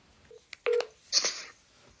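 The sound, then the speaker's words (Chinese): A telephone being dialed: a few short, clean keypad tones at irregular spacing, followed by a brighter, hissy burst lasting under half a second, with no voices. “我们给她打电话吧。”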